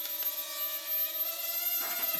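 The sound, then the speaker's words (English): A small helicopter with damaged blades gives a steady buzzing whirr with a thin, persistent whistle riding on top. The tone holds evenly, then turns rougher and more broken near the end. “I have to constantly trim out because the blades are so screwed. But if you listen, that's what the vibration is that you can hear, the funny whistle. It should just be humming,”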